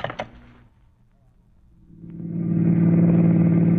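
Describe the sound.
A car driving on the road: a brief clatter at the start, a short lull, then a low, steady engine drone that swells and holds loud.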